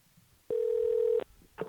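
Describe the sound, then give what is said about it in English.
A telephone tone from a call being placed sounds as one steady, even electronic beep lasting well under a second, followed by the start of a second short tone over faint background noise. “All right. I'm calling Moby.”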